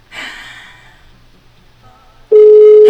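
A telephone call ringing unanswered: a soft breathy sound fades away, then after a quiet pause a loud, steady, sustained ringback tone cuts in and holds to the end.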